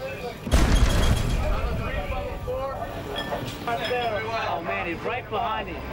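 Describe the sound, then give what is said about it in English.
A 5-inch naval gun fires aboard a warship in a single sudden, heavy blast, followed by a sustained rumbling roar. Voices talk over the later part. “The ship shakes. It's a 5-inch gun. I mean, it's there's a lot of powder behind it to propel that projectile.”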